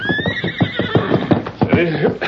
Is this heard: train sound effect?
no

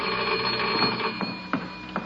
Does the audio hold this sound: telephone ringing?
yes

